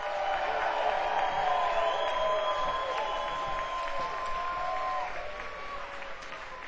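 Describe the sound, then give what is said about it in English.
An audience applauds and cheers to welcome a band onto the stage. The clapping is sustained and loud, threaded with whoops and whistles, and eases slightly toward the end. “So if we could just have maybe a standing ovation before the set even starts, that would be great. Hi, Sierra. Please welcome The Slip.”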